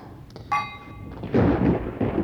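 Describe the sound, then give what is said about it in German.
Thunder from an approaching thunderstorm rolls in soft, low rumbles that swell twice. A brief metallic ringing tone comes before the rumbling. “Es wird ein Gewitter geben. Die sind hier oben immer besonders heftig.”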